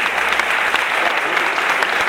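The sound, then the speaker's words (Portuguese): Audience applause for Samba da Cândida at a samba gathering, a loud, dense wash of many hands clapping steadily without a break. “o Samba da Cândida presente aqui, uma salva de palmas.”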